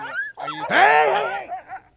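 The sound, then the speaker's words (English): A Greenland dog snarls during an interview, giving a rapid string of tonal, whining cries with bending pitch that swell into one longer, louder call before tapering into a few short, fainter yelps. “After arriving in Dawson, Stachnow's dog suddenly starts snarling mid-interview”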